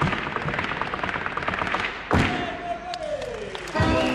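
Bolas twirled one in each hand crack against a special parquet floor during a gaucho circus act, two sharp, loud strikes standing out over a constant crowd-like wash of noise.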